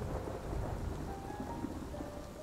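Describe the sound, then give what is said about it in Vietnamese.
Heavy rain pours in a steady, dense hiss, with a low, continuous rumble of thunder underneath; the whole scene is faint and has no voices. “Cơn mưa mỗi lúc một nặng hạt”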